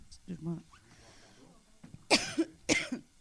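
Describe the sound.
A soft throat clearing, then two sharp, harsh coughs in quick succession from a speaker during a presentation. The coughs are louder and more forceful than the brief low clearing before them.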